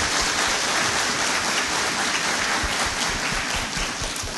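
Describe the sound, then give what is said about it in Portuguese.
An audience at Mass applauding seminarians who are training toward ordination, a dense, rain-like rush of many hands clapping that stays steady throughout and eases a little at the close. “Vamos acolhê-los com uma salva de palmas.”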